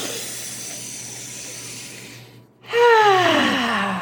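A deep breath taken by a group getting ready: a long, soft, airy inhale, a brief silent pause, then a loud voiced sighing exhale that falls in pitch.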